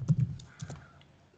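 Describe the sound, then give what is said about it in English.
Keys clatter on a computer keyboard as a search is typed, a few quick taps up front, then sparser, fainter clicks trailing off. “Hold on, I'm going to type in just 80s. Hey, 80s Harvard blackface. Blackface movie.”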